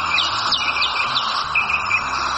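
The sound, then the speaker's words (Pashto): Birds in Afghanistan chirp in quick, high, sweeping calls, repeated many times over a steady hissing bed, with a low tonal hum running underneath. “افغانستان د بېلابېلو مرغانو کور خو د ښکار ویرې هم ورسره ډېره ده.”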